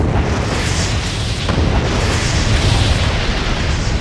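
A powerful explosion sends a fireball rising over buildings on the south side of a bay. It is heard as a loud, sustained, broad roaring rumble that barely varies in level throughout.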